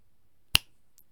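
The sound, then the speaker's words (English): A single sharp finger snap cracks out alone in otherwise near silence, one quick bright click with a brief tail. “when I snap my fingers, you'll wake up.”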